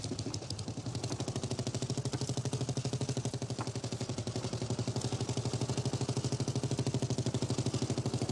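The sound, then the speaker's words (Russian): A motorcycle with a sidecar runs with a steady engine rumble that holds an even pitch throughout, with no voices. “Навстречу проезжает еще один мотоцикл с коляской. Мотоцикл с телом останавливается около амбара.”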